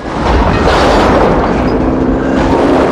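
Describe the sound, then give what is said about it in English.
An oil plant explodes into an inferno after a flare gun shot, flinging barrels of oil into the air. The blast is a very loud, dense, continuous roar and rumble that fills the whole clip without letting up. “He stops, pulls out a flare gun from his belt, and fires a flare towards his car. Mark races away as the plant becomes an inferno.”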